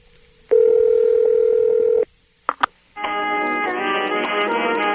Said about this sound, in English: So let's dial up.